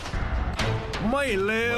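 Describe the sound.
Gunshots fired at a double target in a scored shooting challenge, with a few sharp, booming cracks in quick succession followed by a speaking voice.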